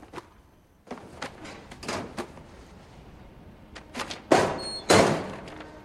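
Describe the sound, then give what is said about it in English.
A school locker door being opened: a series of light knocks and clicks, then two louder, sharper thuds close together near the end. “She goes to a locker and opens it.”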